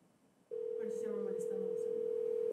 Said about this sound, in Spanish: Pues yo no voy a dejar de marcar hasta que alguien me conteste.